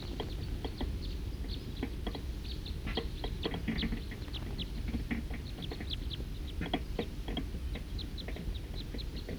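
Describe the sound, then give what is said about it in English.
A big flock of birds passing: many faint, high chirps scattered throughout over a steady, low background hiss. “Another big flock is coming. There's a few of the birds.”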